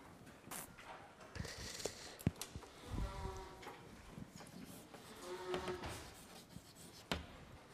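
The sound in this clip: Faint, scratchy writing strokes on a board during a lecture on voltage, with irregular short scrapes and a few light taps.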